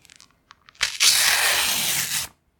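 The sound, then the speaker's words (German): Sheets of paper being torn: a few small crinkles and taps, then one long, loud ripping tear that ends abruptly. “Oh, Blätter zerreißen.”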